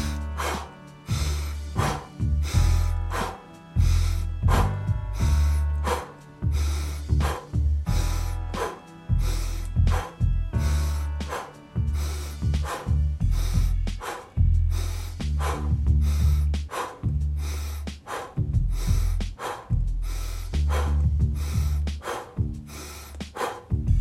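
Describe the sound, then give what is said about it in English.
Steady breathing, in through the nose and out through the mouth, repeats in many regular cycles of audible inhales and exhales with no other sound. “Take an inhale through the nose fully. Then exhale through the mouth. Now it's going to be that pattern to finish for 30 seconds.”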